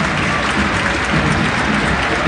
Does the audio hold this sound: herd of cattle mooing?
no